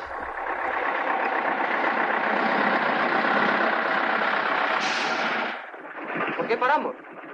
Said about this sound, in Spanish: Después llegan hasta un área de servicio donde está aparcado el camión de la competencia. Miguel entra en el aparcamiento y frena.